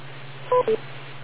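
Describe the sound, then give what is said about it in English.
Two short electronic telephone beep tones in quick succession on a radio net, signalling the start of a message. The beeps are clear and mid-pitched over a steady low hum, with no talking. “Make sure you wait for the beep.”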